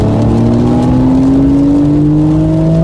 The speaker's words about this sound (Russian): 911 Carrera S.